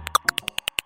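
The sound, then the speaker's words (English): A hoary bat's echolocation call, slowed into human hearing range, comes as nine short chirps in a quick, fairly even rhythm, each a brief tonal blip. “This is the sound of a hoary bat.”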